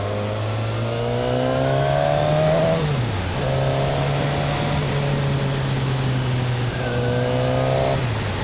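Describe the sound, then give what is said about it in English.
Engine of a decades-old Katana motorcycle running while ridden: a loud, continuous buzzing drone whose pitch climbs, drops sharply, then climbs again, with another drop near the end. “You can tell that this bike has been around for decades. It is perfection.”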